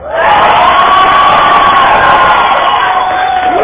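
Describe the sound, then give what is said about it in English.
Loud, sustained audience cheering with shouts and whoops for Team A at a judged team competition, holding steady for several seconds and easing slightly at the end. “All right, let's hear it for Team A.”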